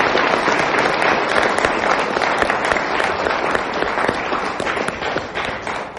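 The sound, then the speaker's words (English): A studio audience applauds the candidates at a forum, with dense, steady clapping that stays loud for the whole six seconds. “Studio audience, please join me in thanking the candidates for their participation in tonight's forum.”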